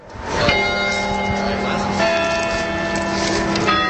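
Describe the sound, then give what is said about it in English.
Campanile bells at UC Berkeley toll notes matched to sea level readings. Sustained, overlapping bell tones hum together, with a few fresh strikes layered on the ongoing resonance throughout. “That's the sound of the campanile bells at UC Berkeley today that tolled based on sea level readings matched to musical notes.”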